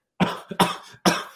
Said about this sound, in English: I got a cough at the moment.